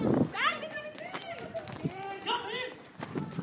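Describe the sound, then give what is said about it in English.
People running from riot police during a street protest against the regime: hurried footfalls mixed with agitated voices talking and calling out throughout. “Okay, there's police in riot gear. We're all running.”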